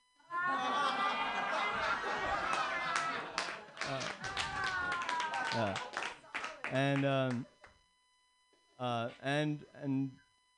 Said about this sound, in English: Oh my God, an applause break on your first time.